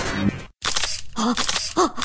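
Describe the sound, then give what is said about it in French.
Camera taking photos, with a few sharp shutter clicks and short whirring mechanical bursts separated by brief pauses, including one moment of near silence, and no talk. “Mais t'as fini de prendre les auditeurs en photo, toi?”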